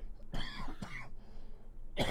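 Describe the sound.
Harsh, throaty coughing in a few short, loud bursts separated by brief quiet gaps, with no talk.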